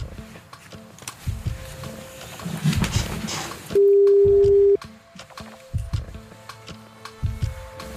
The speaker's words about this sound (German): Nummer wird gewählt.